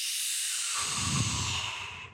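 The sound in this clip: A deep exhale during a breathing exercise: a steady, breathy hiss that holds for about two seconds, then fades away at the end, with no talking.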